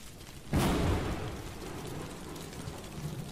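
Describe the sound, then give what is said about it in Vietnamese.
A thunderclap shakes the sky in a storm: a sudden loud crack about half a second in, then a long, heavy rumbling roar that slowly fades over a steady hiss. “Một tiếng sấm nổ rung chuyển cả trời đất, mặt đất nứt ra thành những rãnh sâu hoắm”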